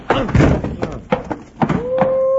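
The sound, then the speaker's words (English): Blows land in a staged fistfight in an old western radio drama as a man is punched and knocked out: a few dull, heavy thumps in quick succession, with a voice briefly heard. “Woo-wee! He won't wake up till about 10 minutes after sundown, Bill. You really smacked him.”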